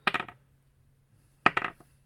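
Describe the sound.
Dice rattling in two separate quick bursts during a dice game used to predict football scores. Each roll is a short cluster of sharp clattering clicks, and a near-silent gap with a faint low hum separates the two rolls.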